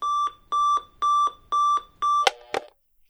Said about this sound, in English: I had my alarm set to go off at like 6 or 7 in the morning